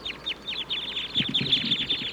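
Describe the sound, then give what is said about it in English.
Birds in treetops call in rapid high-pitched chirps, a quick repeated series of bright notes, with a few lower clucking sounds joining midway. “The wild birds in the treetops are calling now.”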